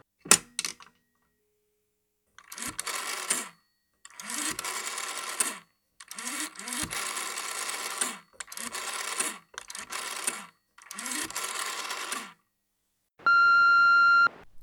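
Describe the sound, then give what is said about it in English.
A telephone being dialed: an opening click, then several mechanical whirring bursts of differing lengths separated by silent gaps, ending with a single steady electronic tone. “it's about that time in the show where we dial the Hot Pit team and ask them what on earth we should be doing.”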